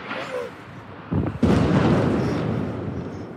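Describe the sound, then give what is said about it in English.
Airstrike explosions in Gaza: two sudden, heavy blasts land in quick succession, followed by a long, low rumble that slowly fades. “The airstrikes are constant in Gaza.”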